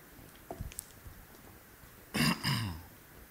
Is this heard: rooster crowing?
no